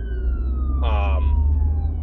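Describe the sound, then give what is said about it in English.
An ambulance siren passes by. Its steady wailing tone drifts slowly lower over a constant low rumble of traffic, and a brief voice cuts in near the middle. “Yep, and here comes the ambulance trying to get by.”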